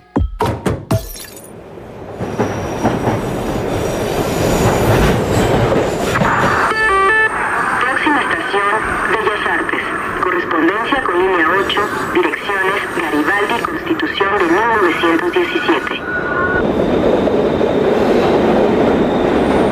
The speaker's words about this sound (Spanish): Seguro ya sabes de qué hablamos. El metro de la Ciudad de México no solo es un transporte, es una experiencia sonora.